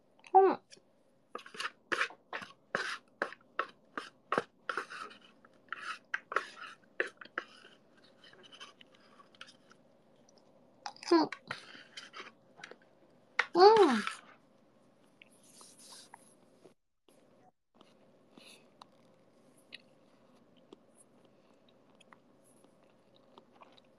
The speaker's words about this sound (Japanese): そしたら最後の一口いただこうかな。いただきます。